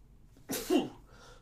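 A sneeze during an allergy attack: a single sharp, breathy burst rising to a peak and then trailing off, heard alone with no speech.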